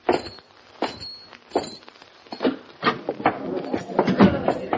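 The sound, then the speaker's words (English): Footsteps walk up to the entrance of a café after riders dismount at a hitching rail, a string of irregular thuds and scuffs that grows louder and denser toward the end. “They dismount at the hitching rail, walk to the entrance, and open the door.”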